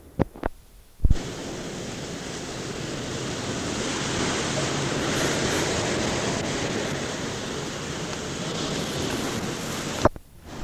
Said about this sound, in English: Even at that, we felt the whole house shake several times. It's like there was an earthquake just from the wind.